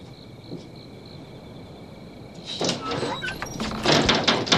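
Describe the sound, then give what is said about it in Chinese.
A door being closed during a heated domestic argument: a faint steady hum, then a burst of scraping, rattling and knocking noise over the final two seconds. “把门关上”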